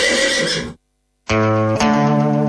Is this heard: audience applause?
no

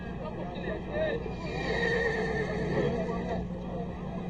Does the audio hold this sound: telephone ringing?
no

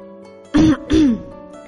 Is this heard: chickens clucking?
no

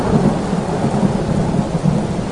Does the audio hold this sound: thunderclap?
yes

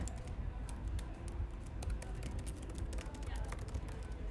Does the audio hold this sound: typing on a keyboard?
yes

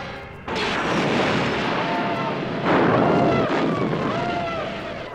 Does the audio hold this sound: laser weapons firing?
yes

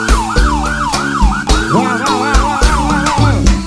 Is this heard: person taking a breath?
no

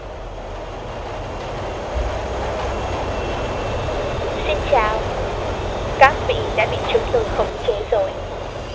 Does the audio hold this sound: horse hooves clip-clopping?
no

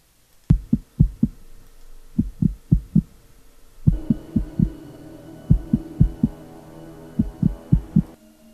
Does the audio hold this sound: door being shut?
no

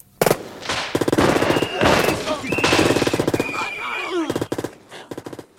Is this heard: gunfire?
yes

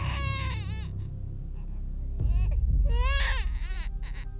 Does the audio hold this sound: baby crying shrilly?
yes

